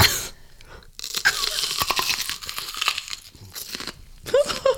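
Crunching and chewing as people bite into a raw onion, with crisp, irregular crackly bursts and short breathy sounds between them.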